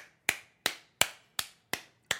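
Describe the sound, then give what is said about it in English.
A quick round of slow clapping: six sharp, evenly spaced claps in a steady rhythm, each one clear and fairly faint against silence. “We'll give you a quick round of applause.”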